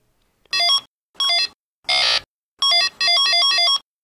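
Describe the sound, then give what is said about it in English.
Electronic beeps from a 1970s Parker Brothers Merlin handheld game: five short bursts of bright, buzzy square-wave tones with silence between them, the third harsher and noisier and the last a quick run of stepped notes. “If you guessed Merlin, the electronic wizard, you were correct.”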